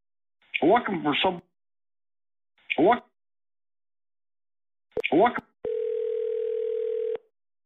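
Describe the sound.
A telephone dial tone after a call is cut off: a steady, single-pitched tone holding for about a second and a half, following a few short bursts of voice.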